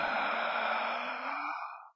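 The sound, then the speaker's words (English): A voice imitating a long exhaled breath during a sermon about the biblical creation story: one steady, breathy whoosh lasting about two seconds that thins out and fades at the end, heard alone. “when Adam exhaled, God in breath came out of him”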